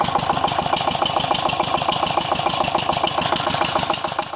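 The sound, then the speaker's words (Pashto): A water pump engine drawing water from dug wells to irrigate melon fields runs steadily, a loud, fast, even thumping rhythm that continues unbroken throughout. “کروندګر د پالیز د پاره اوبه د جوړو څاګانو نه د واټر پمپ ماشین په واسطه راباسي”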